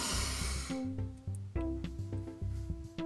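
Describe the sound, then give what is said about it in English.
A deep breath drawn in during a guided breathing exercise: a soft, airy rush of inhaled air at the start, then steady harmonic background music with gently pulsing low notes. “I'm just gonna take this deep breath in.”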